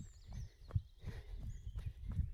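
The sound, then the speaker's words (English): Faint, soft thuds of a person's footsteps running outdoors over rough ground with trees to cross. The dull footfalls come in a loose, steady rhythm, quiet against a low background hiss. “Let's run again, off we go. I've got another big tree to get over.”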